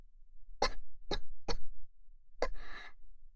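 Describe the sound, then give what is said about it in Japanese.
Coughing after choking on a sip of bitter coffee: four short, sharp coughs in an uneven rhythm, then a raspy, breathy exhale. The coughs stand alone with no talking. “ご好意でいただいたのにむせてしまうなんて”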